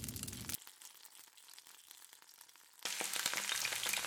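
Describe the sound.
Blood sausages sizzle and crackle as they fry in a pan. The steady hiss starts loud, drops quieter through the middle, then returns louder, with no voices.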